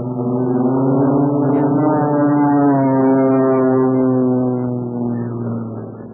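Airplane engine droning as the aircraft dives and strafes, in an old radio drama: a loud, steady, buzzing hum whose pitch climbs slightly, then sags gradually and eases off a little toward the end, with no voices.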